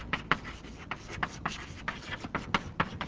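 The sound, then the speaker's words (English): Writing on a board during a mathematics lecture, made up of many quick scratchy strokes and taps in an uneven rhythm with no talk over them. “let me just write it”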